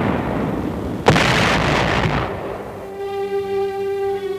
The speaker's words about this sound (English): holding the 100 square miles of beachhead area with innumerable small infantry fights, and tremendous artillery barrages.